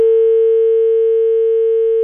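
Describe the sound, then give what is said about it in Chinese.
A steady electronic telephone line tone from an outgoing call that goes unanswered: one continuous, unbroken mid-pitched hum lasting about two seconds, with no voices. “嗯，他不接电话。W 老师先联系贾先生。嗯，贾先生，您那个社区啊，他不接咱们电话啊，通了之后呢，电话他已经挂断了啊。”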